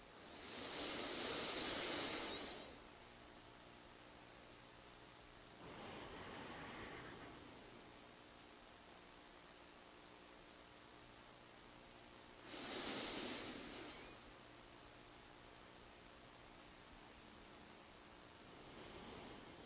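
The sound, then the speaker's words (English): Slow, deep breathing through one nostril at a time, in through the right and out through the left, as in alternate-nostril breathing. A few soft, airy, hissing breaths with long quiet pauses between them. “So let's just take 3 deep breaths through our right nostril. And we open our left and breathe out through our left.”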